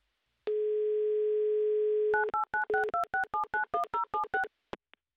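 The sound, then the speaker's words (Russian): Telephone dial tone holds steady for a second and a half, then gives way to a quick run of touch-tone beeps as a number is dialled on a call, ending with a couple of short clicks. “Так, номер мы набрали. Будем ожидать соединения с Рязанью и с Сергеем. Класс, гудок есть.”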